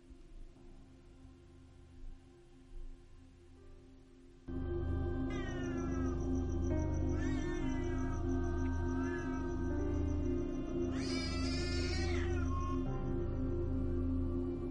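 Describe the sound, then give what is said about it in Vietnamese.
A black cat yowls fiercely as if about to fight: loud, drawn-out wavering cries that rise and fall in pitch, starting abruptly after a few quiet seconds and continuing over a low steady hum. “Thì thấy con hắc miêu kêu lên dữ dội. Tựa như là con mèo đang chuẩn bị đánh nhau vậy.”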